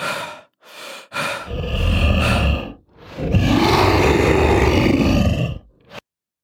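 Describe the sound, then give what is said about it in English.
Heavy, loud breathing from a shackled man after he lunges in a prison interrogation room: a few short breaths, then two long, rasping exhalations with a groaning, voiced tone, ending in one short gasp. “His arms outstretched, he breathes heavily.”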